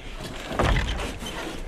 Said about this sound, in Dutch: En de deur gaat dicht.